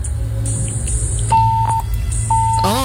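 Disconnection tones of a dropped phone call: two steady mid-pitched beeps, the first longer than the second, sound over a constant low hum.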